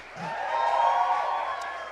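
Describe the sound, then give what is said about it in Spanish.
A church audience shouting for joy during a sermon, many voices swelling together into one loud, sustained cry that fades slightly at the end. “Aleluya, ese aplauso para el Señor, aleluya. Un grito de júbilo.”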